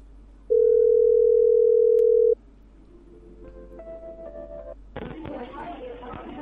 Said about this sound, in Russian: Ты трубку бросил сейчас. Кто трубку бросил?